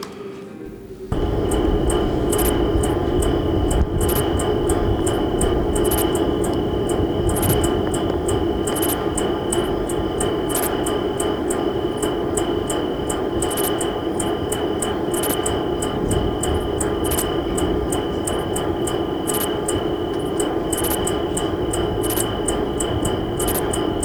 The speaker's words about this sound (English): So this is some insects recorded with Dolby sound reduction, used the wrong way with cassettes, which make the insects pump.